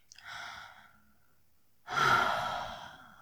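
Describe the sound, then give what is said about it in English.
Warm breathing from a person in an intimate setting: two breathy exhales, the first soft and short, then after a pause of silence a louder, longer breath that slowly fades. “My warm breath.”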